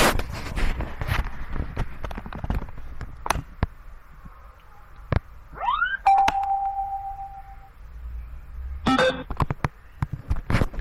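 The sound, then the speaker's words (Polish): Bluetooth headphones powering on: a quick rising chirp followed by a steady mid-pitched beep held for a couple of seconds, with scattered clicks and handling noises before and after. “mogę Wam pokazać, jaki jest dźwięk, jak te słuchawki się włącza.”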